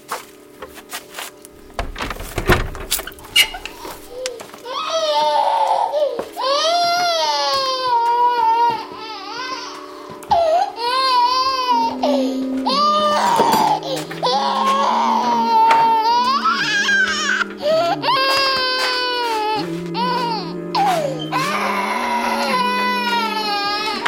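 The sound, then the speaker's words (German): An infant cries without stopping in long wailing bursts with a wavering pitch, loud throughout over a steady low hum. “Ich habe keine Milch mehr. Sie hat keine Milch mehr. Und deshalb weint es.”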